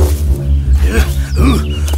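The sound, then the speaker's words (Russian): A wolf growls in the Kolobok fairy tale: a low, rumbling snarl that holds steadily for about two seconds, with a couple of rougher swells in the middle. “А навстречу ему. Ай! О-о! Волк.”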